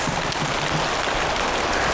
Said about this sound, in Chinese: 等等，下雨了。